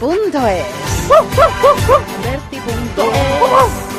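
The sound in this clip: A small dog barks in quick, high yips, a run of four sharp yaps followed by a few more, loud and bright.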